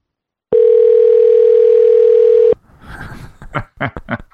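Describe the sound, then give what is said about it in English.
A telephone ringback tone on an outgoing call: one steady, loud, even tone lasting about two seconds, followed by people talking. “Oh, it's two rings. He might pick up.”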